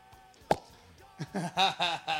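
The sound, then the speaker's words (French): A single sharp cork pop as a bottle of red wine is opened, a brief loud burst early on, with a voice following afterward. “Une bouteille de dégoupillé, voilà, du gros rouge.”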